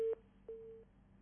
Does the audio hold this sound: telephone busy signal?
yes